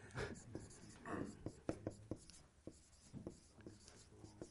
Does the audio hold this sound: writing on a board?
yes